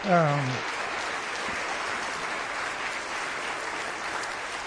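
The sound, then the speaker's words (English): Audience applause at a church service for a graduate working toward ordination: dense, even clapping that swells right after a brief voice and holds steadily for about four seconds. “But if you get a chance, just congratulate her, and let's just give her a hand for”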